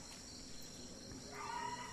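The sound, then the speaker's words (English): Crickets chirp at night in a faint, steady, high-pitched trill that runs through the whole stretch without pause. “now it's dark again because the crickets are out”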